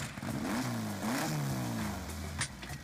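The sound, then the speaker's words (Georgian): Engine revving from a lowered Volkswagen Beetle sports car with sports tyres and a noisy engine built for street racing. A few revs climb and drop over a steady engine drone, fairly faint. “სპორტული რეზინი. დაბალი დაშვება და ხმაურიანი ძრავი.”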